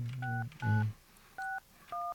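Telephone dialing tones as a live call is placed: four short, clear two-pitch beeps with uneven gaps between them, heard alone with no talking.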